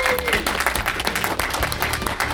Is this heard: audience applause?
yes